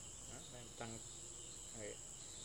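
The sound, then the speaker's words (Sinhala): Crickets chirp in a faint, steady, high-pitched trill that runs unbroken through the whole clip. “දැන් ওই සද්ද ඇහෙනකොට රැහැයියෙක් කියලා එහෙම කියනවා නේද?”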